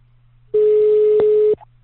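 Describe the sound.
A telephone busy tone sounds after a call is cut off: one steady, loud mid-pitched beep lasting about a second, with a faint low hum underneath and no talking.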